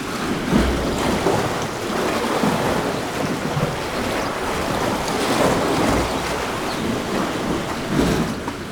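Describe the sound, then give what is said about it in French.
Sea water surges into a rock cavity below cliffs, a loud, continuous churning roar that swells in a few heavier surges. “C'est en fait une cavité où l'eau de mer s'engouffre, produisant”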